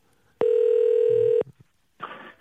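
A telephone call being placed to a listener sounds as one loud, steady ringing tone lasting about a second, followed by a couple of short clicks and a brief burst of noise.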